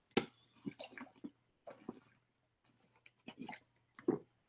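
Someone sips a favourite drink. Faint, wet slurping and mouth sounds come in a few short bursts, separated by brief silences.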